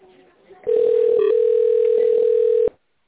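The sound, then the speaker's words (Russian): A telephone tone on a company's automated line when dialing an extension in tone mode: one steady, buzzy note holds for about two seconds and then cuts off abruptly, with faint muffled noise just before it. “Если вы знаете внутренний номер сотрудника, наберите его номер в тоновом режиме.”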